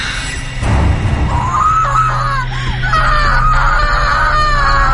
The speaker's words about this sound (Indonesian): terdengar suara teriakan yang sangat kencang